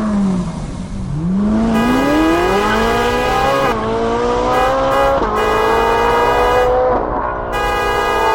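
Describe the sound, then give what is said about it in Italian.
A car overtaking on the road: a loud engine roar whose tone climbs steadily, with brief resets that sound like gear changes, alone without talk. “Ma tu guarda un po' st'imbecille come sorpassa.”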